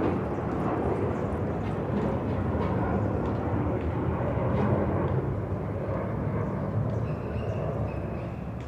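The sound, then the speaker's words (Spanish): An airplane passes overhead as a steady, broad, low rumble that holds fairly even throughout, swelling slightly in the middle before easing off a little at the end. “Ahí va el avión. Perdóname un instante mientras pasa el avión.”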